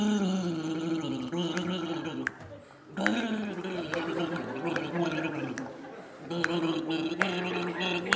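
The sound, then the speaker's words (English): Gargling of a mouthful of drink, a sustained wet bubbling that runs in long stretches with a couple of short breaks between them. “Oh, you just drank it. You're supposed to gargle it.”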